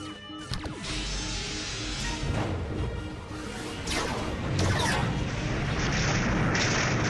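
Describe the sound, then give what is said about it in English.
Sci-fi starship phaser fire in a space battle, with the beams reflected back by an enemy shield: a dense, loud, continuous wash of roaring blasts, swooshes and crashing booms that swells slightly toward the end. “Firing phaser one.”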